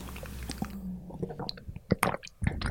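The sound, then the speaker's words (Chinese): A sip of plant-based milk is tasted with soft, wet mouth sounds that come in a few quiet, irregular bursts. “先一口 尝一下吧。”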